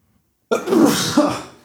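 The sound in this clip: A person's forced, sneeze-like burst, performed as part of a guessing game, opens sharply after a moment of silence, pushes out a second short surge, then trails off.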